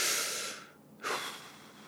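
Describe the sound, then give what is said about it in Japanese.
Quiet deep breathing, alone with no talk: a soft airy hiss fades away, then after a brief pause a second breath swells and holds steady. “まずは深呼吸して”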